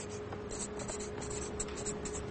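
Writing on paper makes a continuous soft scratching of pen strokes, faint and steady with short rhythmic bursts throughout.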